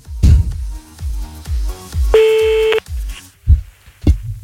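A telephone line tone as a caller redials someone: one steady, sustained beep lasting under a second, set among a regular thumping low beat, with a few short clicks afterward.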